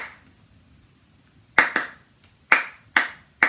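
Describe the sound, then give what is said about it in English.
A band's rhythmic hand claps come in after a quiet opening: five crisp, sharp claps in an uneven pattern, two close together, then three more spaced apart. “They just clap that over and over.”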